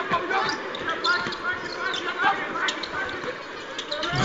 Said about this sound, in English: It's team foul number eight, and 1-1 for Luke Worthington. The Whites have yet to miss a free throw. Tonight, 11 for 11. Now 11 for 12. Front end missed by Luke.